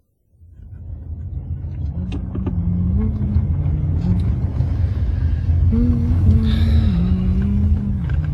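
A car driving in the rain, heard from a low, steady engine rumble that fades in quickly and then holds, with tonal engine notes shifting up and down in pitch. No talk.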